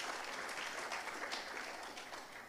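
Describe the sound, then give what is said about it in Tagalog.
A church audience applauds during a worship service, giving steady, even clapping at a fairly low level throughout. “Pwede po ba nating palakpakan yung Panginoon? Come on.”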